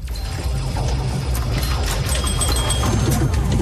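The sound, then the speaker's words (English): Pinball machines at a pinball and arcade show at a convention center make a dense, continuous clatter of mechanical clicks, knocks and ratcheting. The sound is loud and busy, with many overlapping impacts and no pauses. “This is what the Greater Tacoma Convention Center will sound like this weekend as some of the best pinball players come to Washington for the 2023 Northwest Pinball and Arcade Show.”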